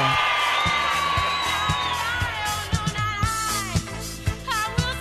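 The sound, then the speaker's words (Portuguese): São Paulo supporters celebrating in a stadium, a dense crowd singing, whooping and yelling over steady, regularly spaced drum beats, loud and continuous throughout. “A torcida tricolor entra em êxtase e faz a festa no banho de coruja.”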